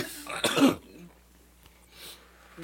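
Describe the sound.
Throat clearing and coughing from someone with mucus problems: one thick, rasping burst early on, then near quiet with only faint breathy noise.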